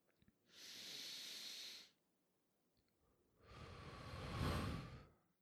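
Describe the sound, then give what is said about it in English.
Two long, deep breaths: a breathy inhale drawn in through the nose, then after a short pause a louder, fuller exhale pushed out through the mouth. Both are steady and hissing, with no talking. “Let's actually take a deep breath right now. Let's do it one more time. Breathe in through our nose, breathe out through our mouth.”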